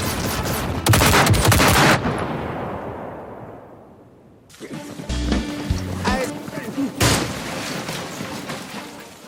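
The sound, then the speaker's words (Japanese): Soldiers ordered to shoot open fire in loud, dense bursts of rapid gunfire, with a long volley that fades into a lull before more shots and rattling bursts return. Voices speak among the firing. “ああ、そこの召喚以外は撃て。”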